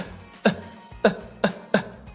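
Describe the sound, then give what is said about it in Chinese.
Small, light demonstration coughs, four short throaty bursts spread unevenly over a couple of seconds against a quiet background hum. “稍微的小小的咳一下就可以了”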